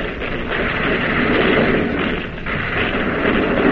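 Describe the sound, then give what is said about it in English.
A warship's main battery guns firing shells at an enemy cruiser during a naval battle: a dense, loud, continuous roar of gunfire with no separate shots standing out, staying steady with a brief dip midway. “Now the main battery of the Boise is pumping shells to the second Jap cruiser.”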